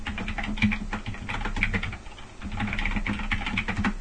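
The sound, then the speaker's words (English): Typing on a computer keyboard: rapid, irregular keystrokes patter steadily throughout, fairly quiet and with no talk, as someone enters text into a chat. “I'm typing it into IRC right now.”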